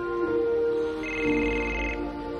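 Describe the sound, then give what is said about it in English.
A mobile phone rings with an electronic ringtone, a steady melodic tone pattern that shifts in pitch, alone and fairly loud throughout. “Ted excitedly reaches for his phone.”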